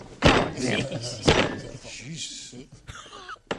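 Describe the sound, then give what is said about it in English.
A hand slams down on a table three times, each a sharp, loud thump, with people talking between the hits. “He starts slamming the table, and one of the guys goes, Jesus. Like, calm the frick down, you psycho.”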